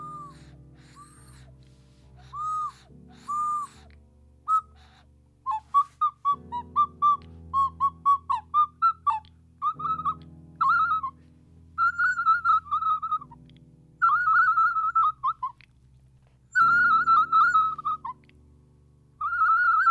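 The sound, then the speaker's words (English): An ocarina toots many short, breathy notes in clipped bursts and runs separated by pauses, its reedy tone over a faint low backing hum. “Sounds like a startled turkey, doesn't it? That was the ocarina pause”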